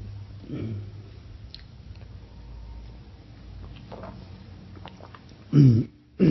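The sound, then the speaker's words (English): A person clears their throat in two loud, rough bursts near the end, after quieter stretches of soft talk and low murmuring. “excuse me for my throat”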